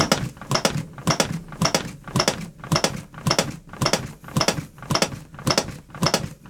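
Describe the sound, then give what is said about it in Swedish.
Chest compressions of cardiopulmonary resuscitation, performed at world-championship level in a studio, form a steady, rapid run of rhythmic clicking thumps, roughly two each second, evenly paced and unbroken, with no voices. “Det vi hör här just nu, det är hjärt- och lungräddning. Men det är inte vanlig hjärt- och lungräddning. Det är hjärt- och lungräddning på världsmästarnivå.”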